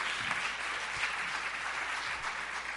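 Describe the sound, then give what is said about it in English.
An audience applauds to welcome two performers at the House of Mercy music venue. Dense, steady clapping continues evenly for the whole stretch, with no voices over it. “so please give a warm House of Mercy welcome to John Magnuson and Becky Capel”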